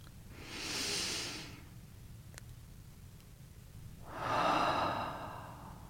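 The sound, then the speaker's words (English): A slow, deep breath taken during a calm embodied-peace practice: a long airy inhale, then after a pause a long audible exhale. Both are soft and heard alone over faint steady hiss. “As we arrive here together, I invite you to join me in taking a breath.”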